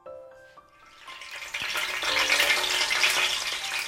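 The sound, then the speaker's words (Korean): An egg frying in plenty of oil in a hot pan until its edges crisp: a steady, hissing sizzle swells from a quiet start and then holds loud and even. “가장자리가 바삭바삭해질 때까지 튀기듯이 계란을 지지다가”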